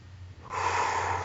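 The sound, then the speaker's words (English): A deep breath taken during an emotional freedom tapping session, a short, airy rush of air that starts partway in and stays strong and steady to the end. “And then take a deep breath.”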